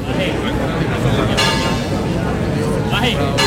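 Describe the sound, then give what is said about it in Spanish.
Basilica church bells ringing at night, metallic chimes partly buried under a dense, loud murmur of a large crowd waiting outside, with people talking throughout. “A esa hora, cuando sonaban así las campanas,”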